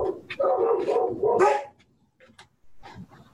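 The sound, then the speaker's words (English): Dogs barking excitedly at night: a rapid run of loud, overlapping barks fills the first part, then a few fainter, sharper yips follow with gaps between them. “I don't know why my dogs are so upset tonight.”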